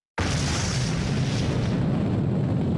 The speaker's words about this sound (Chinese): 1964年10月16日，我国第一枚原子弹成功爆炸